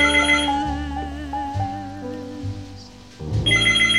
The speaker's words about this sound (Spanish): Tengo una llamada.